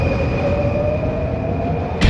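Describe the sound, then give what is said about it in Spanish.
Metro train running on an underground line, a steady low rumble with faint, sustained whining tones riding above it throughout, no voices. “en la 94.1, tomamos la línea de metro que nos dejará en pleno Oxford Circus.”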